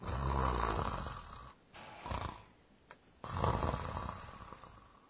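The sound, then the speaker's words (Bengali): Snoring from someone in deep sleep: loud, rasping, low-rumbling breaths that swell and fade in a few long cycles, separated by a short quieter gap, with no talk. “এটা তো ঘুমে নাক ডাকার শব্দ, তাই না?”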